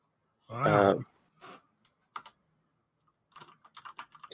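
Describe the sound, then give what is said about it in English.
Typing on a computer keyboard: a short voiced sound comes first, then a few scattered key clicks and a quick burst of light keystrokes, all fairly quiet. “You can't type at all.”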